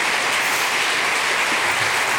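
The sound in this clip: Audience applause welcoming speakers onto a stage for a live conversation event: a dense, steady wash of many hands clapping at once, loud and even throughout, with no individual claps standing out and no voices over it.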